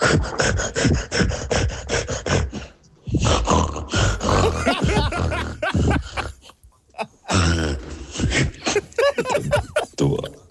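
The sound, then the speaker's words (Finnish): A person vocally imitates a gorilla with loud, rough, rapid grunts, huffs and snort-like roars in three bursts separated by brief pauses. “Tämä on 10 sekunnin gorilla.”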